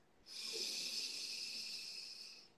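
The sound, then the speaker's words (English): A deep inhale through the nose during a guided belly-breathing exercise: one long, steady, airy breath of about two seconds, soft and alone, with no talk. “Use your belly muscles to push the air out of your lungs and get empty. And then inhale through your nose, fill up.”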